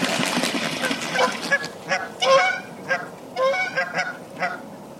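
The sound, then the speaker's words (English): Canada geese honk in a territorial dispute, with many loud, nasal honks in an irregular, agitated run of overlapping calls. “Territorial dispute. Canada goose.”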